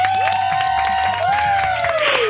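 Studio applause in a radio show, a busy clatter of clapping blended with sustained, gliding musical tones, holding a fairly even level for the short stretch.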